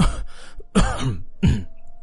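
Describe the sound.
A voice imitating a cough, a character feigning illness in a narrated story: three short, harsh, throaty coughing bursts spaced evenly apart, each followed by a brief raspy trail.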